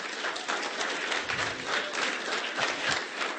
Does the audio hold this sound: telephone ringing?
no